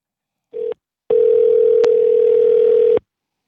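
Telephone tone while calling a programmed company number: a short steady tone burst, a brief pause, then one long unbroken tone of about two seconds with a faint click midway.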